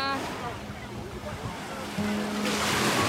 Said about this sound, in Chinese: 他坐在海滩上，迎接着一波又一波的浪花